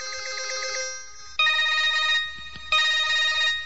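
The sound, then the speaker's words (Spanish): Mobile phone ringing with a loud, melodic electronic ringtone in three bursts separated by short gaps, heard alone without talk. “¿y qué cosa es esa, chico? ¿En qué mundo estás tú, chamo? El celular, el celular.”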